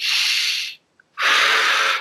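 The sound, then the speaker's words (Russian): Air is drawn in through the nose during a breathing exercise done lying down, heard as two long, loud, airy hisses separated by a short silent pause with a tiny click. “То есть тот же вдох носом”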